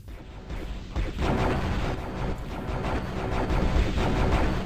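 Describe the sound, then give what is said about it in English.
Rocket explosions in a first-person shooter video game. Many booming blasts run together into a dense, continuous roar with no quiet gaps. “When every one of those got hit with a rocket, they got instantly gibbed.”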